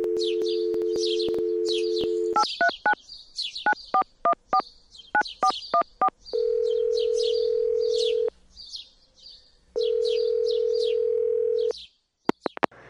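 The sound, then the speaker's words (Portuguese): Phone tones of an outgoing call: a steady dial tone, a quick run of keypad beeps, then two long ringing tones separated by a pause, with birds chirping throughout. “Vou ligar para Gabi.”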